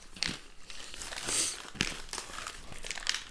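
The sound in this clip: Crinkling packaging rustles as a Sterling Foods cinnamon bun, square in shape, is opened, with many sharp crackling bursts and one longer crinkle in the middle, loud and alone.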